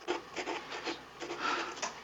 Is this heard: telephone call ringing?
no

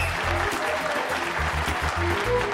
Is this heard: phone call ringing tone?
no

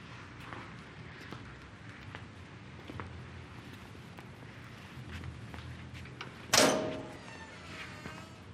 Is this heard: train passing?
no

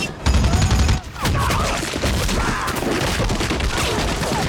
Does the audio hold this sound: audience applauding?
no

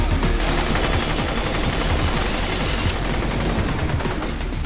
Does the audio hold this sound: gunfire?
yes

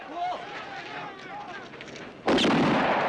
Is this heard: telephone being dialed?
no

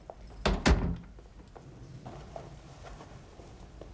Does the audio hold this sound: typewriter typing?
no

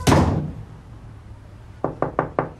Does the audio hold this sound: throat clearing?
no

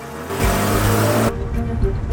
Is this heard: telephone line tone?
no

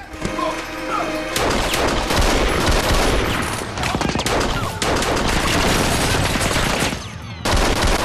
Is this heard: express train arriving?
no

